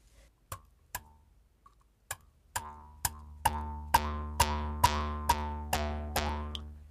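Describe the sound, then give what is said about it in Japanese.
An Ainu mukkuri, a bamboo mouth harp, is played with many twanging plucks. The first few are sparse and faint, then they settle into a steady rhythm, each boing ringing with a resonant, humming drone that carries between strikes. “今日は私もここでムックリを演奏してみたいと思います。 はい。 以前この番組でもムックリを演奏したことがあるんですけれども、私も久しぶりに演奏してみたいと思います。”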